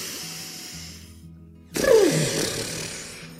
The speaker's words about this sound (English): and then we're going to let the air out like our mouth is a balloon, like this.